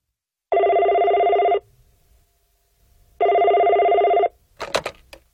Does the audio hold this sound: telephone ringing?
yes